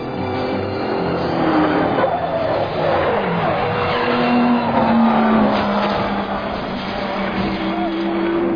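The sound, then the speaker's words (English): A race car roaring past near an ostrich ranch. Loud, steady engine and tire noise carries a whining tone that drops in pitch midway through. “15-year-old Kevin Enault was prepared, his video camera at the ready to shoot his Uncle Bob as he raced past”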